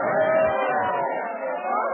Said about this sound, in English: Did you ever see such a crowd in this lobby? All Springfield turned out. Please stop pushing us.